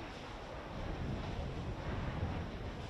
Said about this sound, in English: This is the sound of electricity being generated by wind on board Namona's wind farm at Mount Lucas in County Offaly.